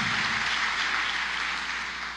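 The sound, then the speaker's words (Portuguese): Applause from an audience during a religious sermon, a steady, even hiss of many hands clapping together that continues without pause and fades slightly at the close. “Aplauda isso.”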